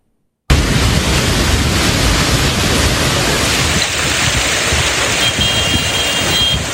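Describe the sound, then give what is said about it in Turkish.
A heavy downpour floods streets in Turkey. After a brief silence, a dense, continuous roar of pouring rain starts abruptly and holds loud and even to the end, with no talk. “Yurttan sağanak manzaralara bir bakalım.”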